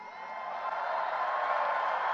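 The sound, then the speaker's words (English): Crowd cheering at a political rally, a sustained, even roar of many voices with no distinct claps standing out. “Oh, the maggots are already cheering.”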